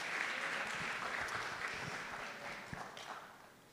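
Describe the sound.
Congregation applause at a Sunday church service, welcoming a family with their baby daughter to the front: fairly soft, steady clapping from many people that continues evenly and tapers slightly near the end.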